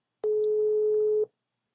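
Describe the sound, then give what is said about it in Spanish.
A single steady telephone tone, about one second long, sounds alone after a call drops and the line is redialed. It opens with a sharp click, holds one even mid pitch and stops cleanly. “Ya le estoy marcando. Se cortó esta estupidez.”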